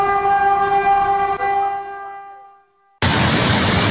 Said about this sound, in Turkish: Hızlı tren yaklaştıkça endişe arttı.